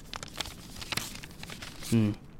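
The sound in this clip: Soft crinkling and rustling of a paper envelope of money being handled, a few faint scattered crackles, followed by a brief voice.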